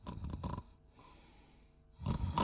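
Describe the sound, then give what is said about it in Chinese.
A voice imitates the snoring of two guards asleep against a camp gate: a loud, rasping, snorting snore, a quieter stretch of breath, then another loud snore. “都打起呼噜来了”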